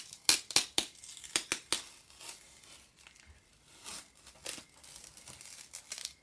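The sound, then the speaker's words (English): Sticker peeled off during an unboxing: a quick run of sharp, crackly tearing rips early on, followed by softer rustling and a few more scattered tears. “Oh, that's sticker, peeling sticker.”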